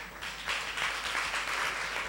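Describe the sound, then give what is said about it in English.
Audience applause at a live show: a steady, dense wash of many hands clapping with no distinct individual claps, moderately quiet and continuous throughout. “Please, let's keep clapping for him.”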